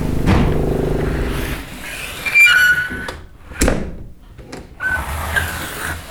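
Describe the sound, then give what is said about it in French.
A new door creaks with a few short, high squeals mixed with dull thuds and rustling handling noise, in irregular bursts with no talking. “Et la porte était neuve, hein. Ah, oui. Et depuis lors, elle grince,”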